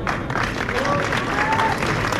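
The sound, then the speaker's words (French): Thunderous applause breaks out as Estela de Carlotto, the 94-year-old president of the Grandmothers of the Plaza de Mayo, arrives in a hall. The clapping from a large crowd is dense, continuous and sustained. “L'arrivée d'Estela De Carlotto déclenche un tonnerre d'applaudissements.”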